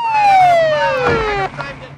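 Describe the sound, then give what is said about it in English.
An ambulance siren wails outside in the dark in one long, loud tone that slides steadily downward in pitch, then cuts off abruptly, leaving a lower rumble and scattered noise. “Outside in the dark, ambulances load up the bodies and drive off.”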